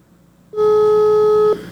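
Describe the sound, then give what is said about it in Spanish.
A telephone ring tone sounds while a number is dialed: one steady, mid-pitched electronic tone lasting about a second, then quiet. “A ver, aquí te estoy marcando.”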